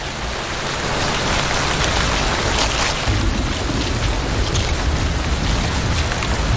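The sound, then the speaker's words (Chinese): Heavy rain falls on forest leaves above a nest of chicks, a dense, even hiss of countless drops that stays loud and constant throughout, with no voices. “雨下得更大了，雨滴顺着树叶滑落，淋湿了巢中的欧戈东雏鸟。”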